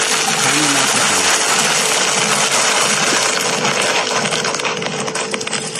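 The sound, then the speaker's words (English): Yeast dough collapsing as built-up CO2 bubbles release, giving a dense, loud, continuous crackling and popping hiss that stays steady throughout. “And that noise, which I'll play again, is the yeast collapsing and the release of all the CO2 bubbles that have built up in there.”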